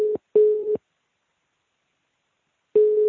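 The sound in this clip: Ringback tone of a telephone call being placed: a steady low-pitched tone in a short burst and a longer burst, a pause of about two seconds, then another burst begins. No voices.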